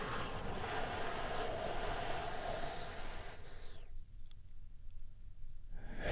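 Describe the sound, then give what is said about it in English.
Deep, slow breathing during a guided meditation, a long airy inhale followed by a brief quiet pause and then a breathy exhale, steady and fairly loud, with no talking. “Let's take another big, deep, healing breath right now. Here we go.”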